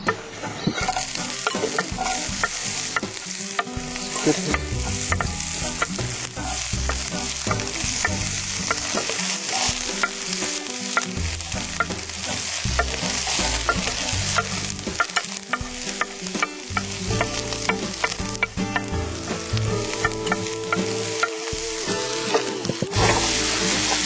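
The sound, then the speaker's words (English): Onions sauté in a pan with a continuous crackling sizzle, broken by frequent scrapes and clacks as a utensil stirs them throughout. “Onions on to saute.”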